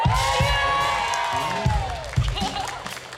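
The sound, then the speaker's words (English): An audience at a live music show cheers and whoops for the saxophone player, a loud, sustained wash of crowd noise with high rising whoops and shouts on top. “Can we hear it for the saxophone again?”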